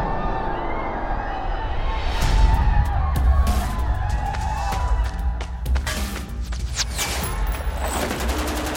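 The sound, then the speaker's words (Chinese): Gunfire in a video game shooter match, including a headshot: many sharp, crackling shots fire in irregular bursts over a steady rumbling background that runs the whole time. “Siri 马上送了一发爆头给 Invicta，白队少了一人”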